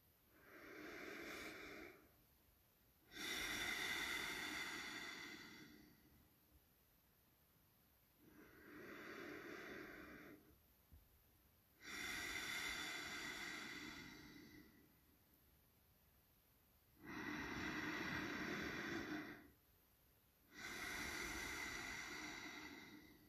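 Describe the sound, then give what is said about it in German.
Three slow, deep breaths in a short morning meditation, heard as six soft, hissy swells of inhaling and exhaling with quiet gaps between them, faint and unaccompanied by speech. “Und nimm hier noch drei tiefe Atemzüge”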